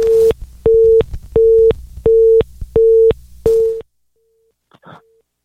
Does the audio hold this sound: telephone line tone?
yes